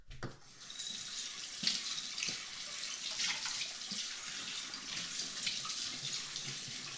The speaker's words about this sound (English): And this dish, just all it really needs is a rinse because all I had was mushrooms.